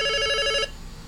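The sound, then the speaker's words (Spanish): A telephone rings for an incoming call: one bright electronic trill of stacked harmonic tones lasting about half a second, then cutting off to faint background hiss. “hay llamada telefónica, a ver, ¿con quién estamos? Hay llamada telefónica, no sale.”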